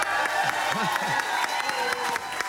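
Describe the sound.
Audience applause in a festival tent, a steady wash of dense clapping with a few short cheers and whoops early on, holding even to the end.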